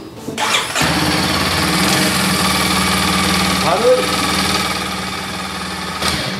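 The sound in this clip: A 230 cc engine cranks briefly and catches, then settles into a loud, steady idle with a fast, even putter that holds for several seconds.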